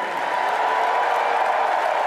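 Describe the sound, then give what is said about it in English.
A crowd roars and applauds at the end of a political speech, a loud, continuous, dense wash of cheering and clapping that holds steady with no pause. “Oh, the crowd is roaring.”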